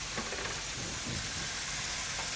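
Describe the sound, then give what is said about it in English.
Minced beef sizzles as it fries in a pan over moderate heat, a steady, continuous hiss and crackle that holds evenly throughout with no talking. “Nice sizzling sound. Just break up the meat and put into the pan. Don't want the heat too high.”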